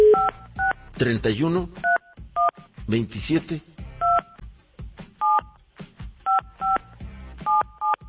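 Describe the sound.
Touch-tone telephone number being dialed: many short, clean two-note beeps in quick clusters, separated by bursts of lively talk.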